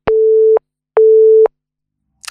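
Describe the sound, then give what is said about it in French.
Answering machine tone on a radio show's message line: two long, identical beeps at one steady pitch with a short pause between, then a tiny faint blip. “c'est le répondeur, là où vous pouvez nous laisser des messages”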